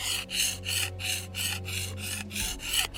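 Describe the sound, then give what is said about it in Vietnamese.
A blade being sharpened gives a regular series of harsh, rasping strokes, each a short burst of scraping with brief gaps between, steady in pace and moderately loud, with no voices. “Là mài đao.”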